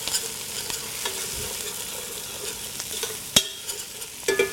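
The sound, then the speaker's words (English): Onions sweat in butter and olive oil in a pot for minestrone, giving a soft, steady sizzle broken by a few sharp clicks and scrapes of stirring, with no voices. “Our onion, we're going to cook this down for about 10 minutes and sweat the onions until they're soft. We're also using a tablespoon of butter with the olive oil.”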